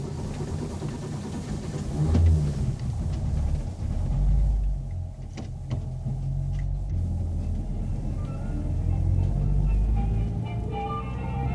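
Car engine rumbling as the car drives off after its faulty clutch was repaired: a steady, deep, low rumble that holds for the whole stretch with small swells in loudness and no voices.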